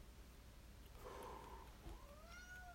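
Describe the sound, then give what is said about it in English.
A pet cat meowing faintly, with two drawn-out meows, the second rising and then falling in pitch, set against a low background hiss. “That's my cat. It's a good cat.”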